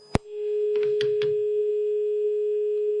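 Steady telephone dial tone after a dropped call: a click, then a continuous mid-pitched hum holding at an even level for about three seconds, with a few soft clatters early on.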